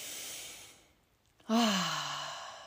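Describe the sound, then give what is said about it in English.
A deep breath is taken in, its soft airy rush fading to a moment of quiet before a loud, voiced sigh of release that trails off slowly, with no other sound around it. “Big breath if you need one with me.”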